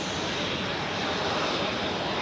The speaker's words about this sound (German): Mit einer Steigleistung von bis zu 200 Metern pro Sekunde hebt der Jet ab.